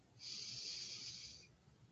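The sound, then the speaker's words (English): One long, deep inhale during a guided breathing exercise: a steady airy hiss lasting over a second, then fading out, heard alone without talk. “And 1 more, breathing in”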